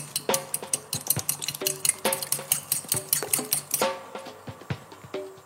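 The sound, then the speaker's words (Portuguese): Stirring cream with aromatic herbs into beaten eggs and chives in a bowl, heard as many quick, bright clinks and scrapes of a utensil against the dish in an uneven, busy rhythm. “Juntamos a nata com ervas aromáticas parmalate aos ovos batidos. Juntamos também o cebolinho e mexemos tudo muito bem.”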